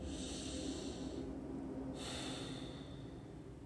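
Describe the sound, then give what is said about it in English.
A deep breath is drawn and let out, a long, airy, quiet rush of air with a short lull midway, heard alone. “So just take a deep breath wherever you are right now.”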